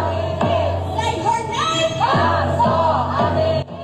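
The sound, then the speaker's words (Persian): A crowd of protesters in front of the White House shouts Mahsa Amini's name in loud, repeated chorused yells, with voices rising and falling across the chant. “نام او را روبروی کاخ سفید فریاد زدند.”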